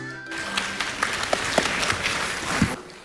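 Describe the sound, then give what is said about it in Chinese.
Audience applause after a crosstalk comedy performance of foreign-language tongue twisters: a short burst of many hands clapping, with a few sharper individual claps standing out, ending abruptly near the close. “谢谢朋友们热情的掌声， 感谢大家。”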